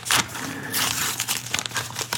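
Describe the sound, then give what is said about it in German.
A paper envelope is handled, giving a soft crinkling and rustling of paper in short uneven bursts, fairly quiet and with no voices. “Ein weiterer Umschlag. Nicht zu öffnen vor dem Tod oder dem Verschwinden von Dr. Henry Jekyll.”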